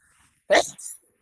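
A dog gives a single short bark, a sharp loud burst trailing into a softer tail, heard alone against near silence.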